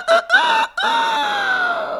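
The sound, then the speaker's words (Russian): A rooster crows loudly: two short clipped notes lead into a long, drawn-out call whose pitch slowly sinks, all heard alone without other sounds. “Около 3 часов ночи петух проснулся, взмахнул крыльями и оглушительно пропел свое веселое.”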